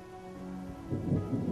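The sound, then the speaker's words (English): Rain pours down in a steady hiss that swells louder in the second half, with a low rumble building underneath. “Rain pours down on them”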